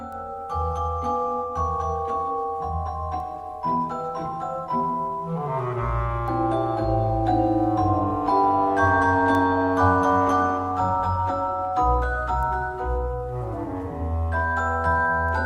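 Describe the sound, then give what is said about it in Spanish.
An 1892 orchestral ballet dance piece is played from a recording. Steady low notes pulse under a sequence of bright, bell-like melodic tones, and the music runs continuously without talk. “pues traigo un ejemplo de Tchaikovsky, del Cascanueces. La mítica Dance of the Sugar Plum Fairy.”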